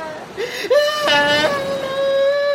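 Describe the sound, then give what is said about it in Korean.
A child wails in a high, tearful cry, catching briefly before it stretches into a long, even moan. “내 아들이. 내 아들이 울고 이, 있다.”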